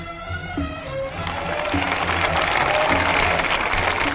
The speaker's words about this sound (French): Applaudissements